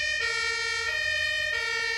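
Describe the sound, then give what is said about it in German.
Two-tone siren of a passing fire engine at an evacuation scene, with a heavy truck and several cars. The loud, steady wail switches between two pitches a few times over a low traffic rumble. “weil jetzt gerade hier an der Stelle nochmal ein Feuerwehrauto vorbeifährt, ein schwerer LKW und mehrere Autos”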